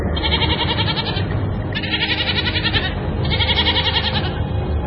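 A young goat kid bleats in alarm at a leopard's scent. It gives loud, sustained, quavering cries in three long bursts with hardly a pause between them.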